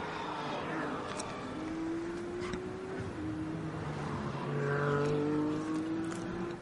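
Race cars on a wet-then-drying racing circuit: a steady, fairly faint blend of engine drones with several overlapping tones that slide slowly in pitch, continuing throughout with no break.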